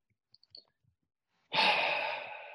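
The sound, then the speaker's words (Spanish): One deep breath drawn in through the nose, a loud airy rush that starts suddenly after near silence and a few tiny clicks, then slowly fades over about a second. “Y quisiera invitarte a que puedas hacer unas 3 o 4 respiraciones más profundas. Inhalando por la nariz”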